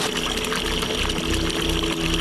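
Water rushes steadily by gravity through rice terrace irrigation channels, fed from mountain headwaters with no pump, a continuous, fairly loud wash of flowing and trickling noise.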